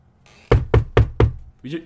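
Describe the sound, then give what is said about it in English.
Four sharp knocks, evenly spaced and loud, sound on something while people are inside a tent. A brief voice follows right after the last knock. “Did you hear that? Someone. I don't know what that sound is. We're in a tent. Yeah, I think someone. Like someone just knocked.”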